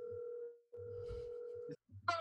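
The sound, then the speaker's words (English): Ringback tone of an outgoing phone call being dialed: two long, steady mid-pitched tones separated by a short gap, followed by a brief rougher burst of sound. “Let me go ahead and dial up Abe real quick.”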